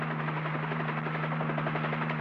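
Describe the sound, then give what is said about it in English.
A helicopter flies directly over a ridge during a wildfire, its rotor thrumming in a steady, even drone with a low hum underneath, continuous and unbroken, with no talk. “Control, this is Helicopter 3. This is Control. Go ahead, Helicopter 3. We're directly over Silverton Ridge.”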